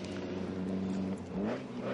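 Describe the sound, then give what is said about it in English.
A TVR Grand Tourer racing car passes during a race, its engine a steady, dense harmonic drone that briefly climbs in pitch near the end. “There's the TVR Grand Tourer.”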